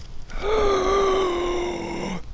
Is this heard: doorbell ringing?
no